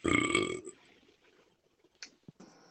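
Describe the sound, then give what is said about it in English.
A single loud, throaty burp lasts about half a second, followed by near silence broken by a few faint clicks and small noises. “Burp.”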